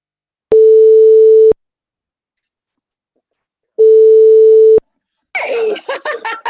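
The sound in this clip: Telephone ringing tones sound while a listener is being called: two long, steady, even-pitched rings separated by a pause, followed by a voice answering with laughter.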